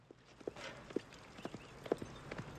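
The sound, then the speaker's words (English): A horse's hooves clop at a steady walking pace as it is ridden back over a hill. The hoofbeats are faint and evenly spaced, with no other sound over them. “Doc rides back over the hill towards the hidden camp, where Chavez is still with the others.”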